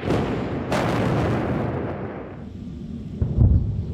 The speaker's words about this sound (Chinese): 从黑夜到白天，以军持续空袭。